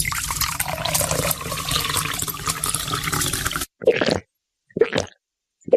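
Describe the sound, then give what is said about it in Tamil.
Chilled buttermilk being poured into a glass: a steady, gurgling stream of liquid for a few seconds, then it stops and is followed by three short splashy bursts. “ஐயா, நீங்க களைப்பா வருவீங்கன்னு தெரிஞ்சுதான் குளிர்ச்சியான நீர்மோர் தயார் பண்ணி வச்சிருக்கேன். இந்தாங்க ஐயா, குடிங்க ஐயா.”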